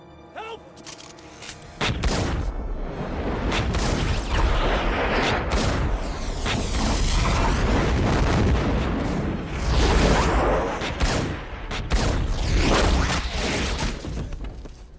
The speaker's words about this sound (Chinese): 小白决定用枪口替他发言。来而不往非礼也，你射我，那我也射你。